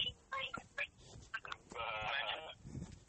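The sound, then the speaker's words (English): Sheep grazing in a field bleat faintly. A few short calls are followed by a longer bleat, with quiet rustling between them. “Look, I'm walking past the sheep again. Look at these sheep. Just eating grass.”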